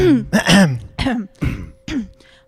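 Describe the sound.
A person clears their throat from saliva built up at the back of the throat: a loud run of several voiced, rasping, gurgling clears in quick succession, alone without talk.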